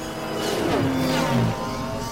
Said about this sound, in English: and this is speeder bikes again on Sulukumai running around, and I guess they shouldn't sound like the speeder bikes from the Return of the Jedi time period, but they do, and this is what they sound like.